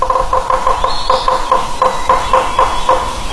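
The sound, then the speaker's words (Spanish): A woodpecker calling in a rapid, even series of many short tonal notes at a steady pace over a constant hissing background. “Es un pájaro carpintero.”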